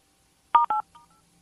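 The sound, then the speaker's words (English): Touch-tone telephone keypad beeps as zero is pressed in an automated menu for a turkey cooking help line: two short, loud tones in quick succession, then a fainter brief blip, with no talk. “If you still wish to speak with a home economist, press or say zero. Zero.”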